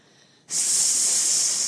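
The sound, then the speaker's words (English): A snake's hiss, the feathered snake of a tense story scene, cuts in sharply after a brief near-silence and then holds as a loud, bright, steady sibilant stream to the end. “"Sss," whispered the snake, softly and hissingly.”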